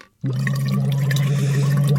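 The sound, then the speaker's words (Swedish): Bubbling into a phonation tube in water as a voice warm-up: a steady, low hummed tone with continuous gurgling bubbles, starting abruptly after a brief silence and holding to the end. “Jag har ett fonationsrör här som man ska bubbla i före sändningarna. Låt så här.”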